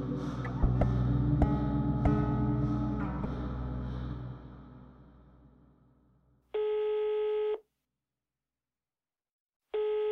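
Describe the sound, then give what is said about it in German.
An outgoing phone call rings out after a run of plucked musical notes fades away. Two long, steady ringback tones follow, separated by a gap of silence, and the second tone is cut off at the end. “Ich habe Frank nach unserem Gespräch bei seiner Mutter unterm Dach nochmal angerufen.”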